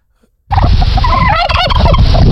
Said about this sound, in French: Un dindon.